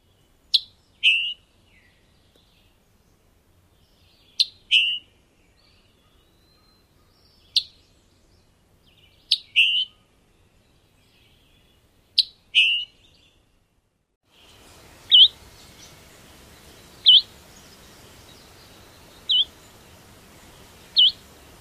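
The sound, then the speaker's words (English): Scarlet tanager call notes: sharp, high, clipped chips repeated at a slow, irregular pace. Several come as quick doubled pairs, and later single notes sound over a faint steady background hiss. “And finally, here's the call note of the scarlet tanager.”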